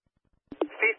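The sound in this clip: Telephone keypad dialing tones: after two brief knocks, a short, steady two-pitched beep sounds, then another tone begins right at the end.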